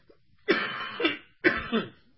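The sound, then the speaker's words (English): Two harsh coughing bouts from someone battling a bad, lingering cough, each burst breaking into a couple of rough hacks, loud and alone with no talk. “I'm still battling this horrible cough, so excuse me here.”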